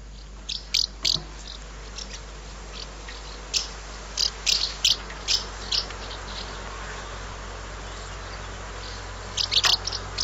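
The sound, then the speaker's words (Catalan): House martins calling: many short, high, dry chirps in scattered clusters, with quiet gaps between, over a faint, steady low hum. “Doncs anem a escoltar com sona aquesta, la oreneta cua blanca.”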